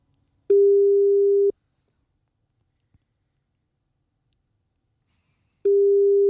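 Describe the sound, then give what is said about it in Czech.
Ringback tone of an outgoing phone call placed as a morning wake-up call: two long, steady, mid-pitched tone bursts about a second each, separated by a long silence with one faint click. No voices. “Jestli navážím spojení a jestli to zvedne, tak je to tady.”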